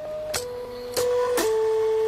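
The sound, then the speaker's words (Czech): Motor whine from a seed dispenser built like a small 3D printer, its arm travelling up, down, left and right to drop single seeds into a tray. Steady tones shift pitch between three sharp mechanical clicks. “Ten dávkovač vypadá v podstatě jako malá 3D tiskárna. Ve výšce asi 30 cm má rameno, které jezdí nahoru, dolů, doleva, doprava a podle toho toto rameno dávkuje jednotlivá semínka.”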